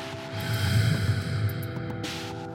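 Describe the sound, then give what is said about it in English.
Deep breathing in and out, long and airy, sustained over steady, soft musical tones, with a brief rushing breath near the end. “Deep breath in. Deep breath out.”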